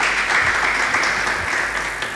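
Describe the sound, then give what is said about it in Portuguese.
Audience applause for a performer on stage: a short burst of steady, dense clapping from many people, holding a fairly even level and easing slightly toward the end. “E eu vou provocar a nossa plateia uma vez mais. Aplausos para a Jennifer Tavira.”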